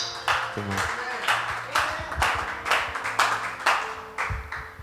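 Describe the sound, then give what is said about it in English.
Church audience clapping to welcome a speaker: a steady run of rhythmic, moderately loud claps repeating at an even pace throughout, with faint tonal sounds underneath. “So, will you put your hands together and welcome Natasha to come and minister? Come on, church, you can do that better.”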